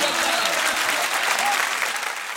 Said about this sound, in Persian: جانم جانم دست بزن.